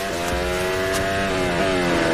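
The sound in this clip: Race car engine during a race as the car downshifts into a long left-hand turn: a loud, continuous high-revving whine with a couple of brief blips in pitch.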